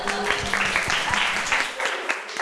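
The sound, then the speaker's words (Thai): Applause from classmates clapping for a student who answered correctly in class, a steady patter of many hands that runs throughout. “อุ้ยเก่งมากปรบมือให้เพื่อนหน่อย”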